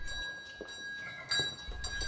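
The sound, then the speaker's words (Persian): A bell rings from a mother's bedroom in a house. It gives a faint, steady ringing tone with a few soft knocks and rustles underneath. “زنگ اتاق خواب مادرمه.”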